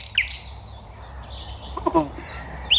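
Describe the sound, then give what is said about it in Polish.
Nightingale song recorded in a park: a few short, sharp high chirps and brief trills scattered over a low, steady background rumble. “To na razie słowik nagrany w parku przez naszą reporterkę.”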